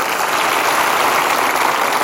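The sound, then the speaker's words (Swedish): Audience applause breaks out during a comedy tour show, a dense, steady wash of many hands clapping at an even, fairly loud level for the whole stretch, with no voices standing out. “Ja, det är värt en applåd.”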